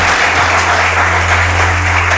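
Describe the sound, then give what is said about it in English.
Congregation clapping together during a church service, a dense, steady wash of applause that holds at an even loudness for the whole couple of seconds, with a low hum beneath it. “Yes, let's clap for Jesus.”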